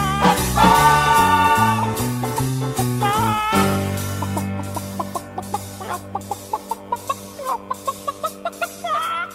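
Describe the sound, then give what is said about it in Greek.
A hen clucking as it strains to lay eggs: a long, steady run of many short, evenly spaced clucks, preceded by a few seconds of music. “Και εσύ να κάθεις να ζορίζεις την κότα, να κάνει περισσότερα αυγά. Να, εδώ ζορίζεται.”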